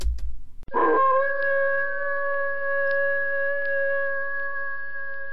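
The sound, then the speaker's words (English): A werewolf howl used as a Halloween sound-guessing puzzle: a short burst of noise gives way to one long, steady, high-pitched howl that holds a wavering tone for several seconds. “It's the GSA werewolf named Maximilian.”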